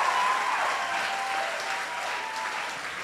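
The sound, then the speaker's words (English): An audience applauds at a televised event, a steady, fairly faint wash of clapping and crowd noise that holds evenly throughout. “So put your hands together and also make some noise.”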